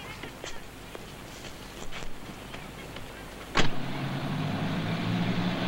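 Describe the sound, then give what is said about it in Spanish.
A police car pulls up and parks beside another car: a few light clicks, then a sharp thud followed by a steady low engine hum. “Un coche policía aparca junto al automóvil de Clyde.”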